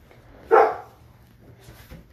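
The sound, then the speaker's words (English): A dog lets out a single short, sharp bark that stands alone against a quiet, faintly humming background. “I'm sorry for the dog.”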